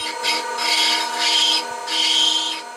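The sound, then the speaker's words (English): A metal, drill-like dental tool carves fossilized mammoth ivory in a studio. A steady motor hum runs under a few repeated scratchy rasping bursts as the bit grinds the ivory. “That's the sound of a dental tool”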